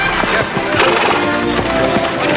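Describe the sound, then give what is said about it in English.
Horse hooves clip-clop as a horse-drawn carriage and buggy roll along a street, with many steady, regular hoof beats over a continuous rumble of wheels and background sound. “then urges his horse onward. Yeah. The youngest son is riding in the buggy with his father as Thomas drives the carriage containing the slave woman, the two daughters, and the two other sons.”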